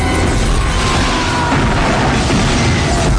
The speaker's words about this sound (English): It's a bomb!